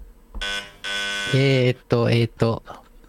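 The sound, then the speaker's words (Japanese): Harsh wrong-answer buzzers from a quiz show sound in a few flat, droning bursts, interleaved with voices. “こんなにいっぱいブーが鳴る番組ないよ。”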